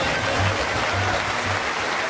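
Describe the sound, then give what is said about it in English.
An audience in Halifax claps along, making a dense, continuous rush of hand claps with a low, droning undertone that stays even throughout. “the audience here in Halifax clapping along to something”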